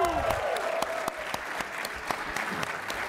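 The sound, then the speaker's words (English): Applause from a live studio audience at PAX East, the gaming convention: many hands clapping in a dense, continuous patter with crisp individual claps popping out, steady in loudness throughout. “I would also like some applause.”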